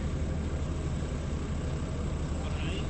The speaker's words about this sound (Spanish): Escucha ese motor.